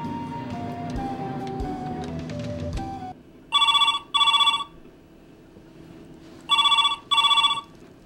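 A telephone rings in two pairs of bright, trilling electronic bursts, each pair made of two short rings close together with a pause between the pairs. Softer mixed sound comes before the first ring.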